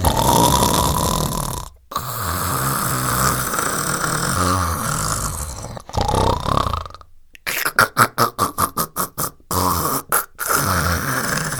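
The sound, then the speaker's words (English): An old woman asleep in bed snores and croaks like a bullfrog: long, loud, rasping snores, then a run of quick, rhythmic croaking pulses near the end. “as the old woman lay asleep, snoring and croaking like a bullfrog,”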